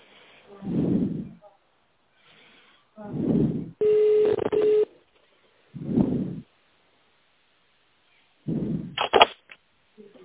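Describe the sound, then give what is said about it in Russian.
Telephone line tones while a call to a road construction company waits to connect: several low, muffled bursts repeat a few seconds apart over a narrow phone band, with a brief steady tone and a short burst of beeps near the end. “Для связи с абонентом наберите номер в тональном режиме или оставайтесь на линии.”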